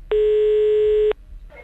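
A single steady telephone tone sounds as a prank call is placed. It is loud and lasts about a second on its own, followed by faint noise.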